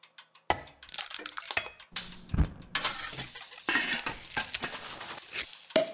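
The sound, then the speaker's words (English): Asparagus risotto being stirred in a pot in a kitchen: irregular metallic clinks and scrapes of utensils against pans, with soft stirring and a light sizzle underneath, growing busier toward the end. “I do want to go right into a clip with Frances McDormand sure. while you guys are in her kitchen making this asparagus risotto.”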